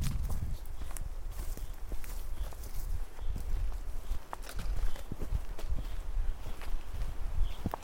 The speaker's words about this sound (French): on est en train de marcher sur le fenouil des Alpes.